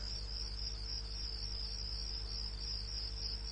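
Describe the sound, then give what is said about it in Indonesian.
Crickets chirp at night in a very quiet setting, a continuous high, even trill that holds steady throughout, with a low, constant rumble underneath. “Suasana kali ini sudah sangat sepi. Hanya terdengar suara jangkrik dan suara angin.”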